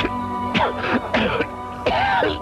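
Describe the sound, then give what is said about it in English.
Harsh, rasping coughs come in a few rough, voiced bursts separated by short pauses. They are loud and carry no speech. “oh, this dreaded cough. He's not going to stop coughing.”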